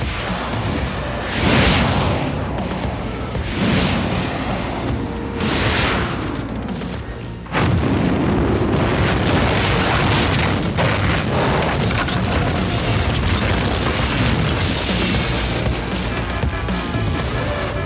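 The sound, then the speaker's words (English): Missiles launching and exploding in an attack aimed at an army base: a dense, loud wall of rumbling booms and whooshing blasts that runs throughout, with one sharp break and fresh surge partway through. “Enter the launch codes. As you command. Set them for the center of the Angel Army base. Fire the missiles at will, Lord Warren.”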